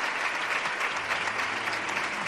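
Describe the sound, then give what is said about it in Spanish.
A theatre audience on its feet giving a standing ovation, a loud, dense and steady wash of clapping with no pauses. “Sigue también agradeciendo las muestras de cariño, el aplauso de todo el teatro, que como te digo, sigue manteniendo su ovación, sigue todo el público puesto en pie”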